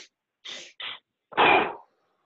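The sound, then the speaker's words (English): Two quick sniffing inhales through the nose, then a longer, louder breath out, done as a calming breathing exercise. The short intakes come close together, followed after a brief pause by the fuller exhale, with no talking. “it's just a double inhale through your nose.”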